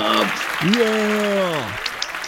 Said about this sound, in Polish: I tutaj jakieś brawa, oklaski, gdzie ja mam oklaski,